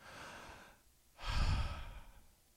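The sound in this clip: A deep breath drawn and let out during a moment of prayer: two soft, airy breath sounds, a quieter one followed by a longer, louder one with a low rumbling edge. No talking.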